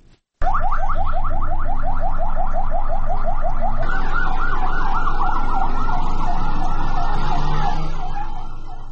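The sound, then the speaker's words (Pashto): Ambulance sirens in Kandahar wail loudly on their own after a brief silence, first a rapid repeating yelp, then a slower wavering wail that eases off slightly at the end. “نن د جمعې د لمانځه پر مهال په کندهار کې امبولانسونه د شیوو د مرکزی جامع جماعت په لور روان شول.”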